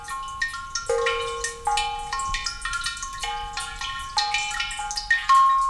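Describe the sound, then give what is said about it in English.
Water drips into a clay cistern-like water harp cave that catches overflow from stone drinking basins, making many irregular, tinkling bell-like tones of varied pitch that ring and overlap, clear and unaccompanied. “These tinkling melodies are created by Asui Kinkutz, which literally translates as water harp cave. This clay cistern-like device is designed to catch the overflow of water from stone drinking basins”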